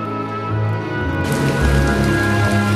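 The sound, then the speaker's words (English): Torrential rain pours down in a steady, dense hiss that thickens and grows fuller about midway through, with no voices over it. “In torrential rain and soaked through, Emma walks to Patrick's flat.”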